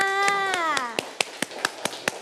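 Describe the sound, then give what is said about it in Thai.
Children clapping for their classmates in a class, a steady series of sharp, evenly spaced claps in a regular rhythm, after a brief falling tone at the start. “เด็กๆทั้งปลายทางและต้นทางปรบมือให้เพื่อนๆค่ะ”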